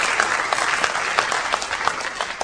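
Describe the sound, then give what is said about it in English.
Audience applause for a guest being acknowledged: dense, steady clapping from many hands, loud and continuous throughout, with no break. “You can give him a round of applause.”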